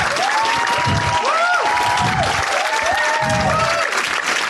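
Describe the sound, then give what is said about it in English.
Audience applause welcoming a panel onto the stage at a live event, heard as dense, steady clapping from a crowd that holds at an even level throughout. “Please put your hands together and welcome Suleika Jaouad, Jon Batiste, and Matthew Heineman.”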